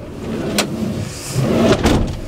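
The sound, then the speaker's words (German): A Mercedes Sprinter van door is slammed shut with a swing, giving two sharp, loud bangs over a low rumble. “So, die gute alte Sprintertür.”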